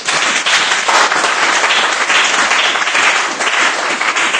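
A church audience gives a loud round of applause to the Lord. The thick wash of many hands clapping continues strongly at a fairly even level, with slight swells.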